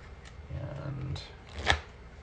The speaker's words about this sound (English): So let me get out my playing cards really quick.